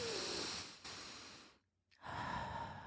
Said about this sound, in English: Take a deep breath. And everyone do that with me right now.